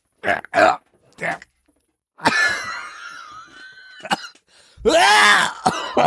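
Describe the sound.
Coughing as a crumb comes up the throat: a few short, harsh coughs, then strained, wheezy throat-clearing and a loud rasping cough near the end.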